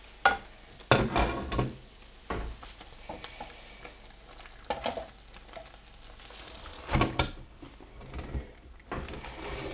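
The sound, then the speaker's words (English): A metal spatula scrapes and knocks against a very hot grill pan as cooked pork is lifted off onto a plate: faint, irregular scrapes and clatter over a soft sizzling hiss. “Be careful with this grill pan. This grill bag is wicked hot. But as you saw, I just basically grabbed hold of the corner of it and put the spatula”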